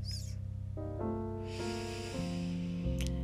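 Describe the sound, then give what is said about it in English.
A long, deep breath drawn in through the nose during a guided breathing exercise, a soft airy hiss over quiet sustained tones that shift pitch in steps. “Inhale a nice, big, deep breath in through the nose.”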